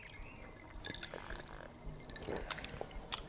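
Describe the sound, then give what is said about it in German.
Beer glasses clink together in a toast over Oettinger Export, with a few short, bright chinks amid soft liquid and pouring sounds. No voices are heard. “Dank unserem Gast haben wir aber das perfekte Exportbier gefunden. Oettinger Export. Prost.”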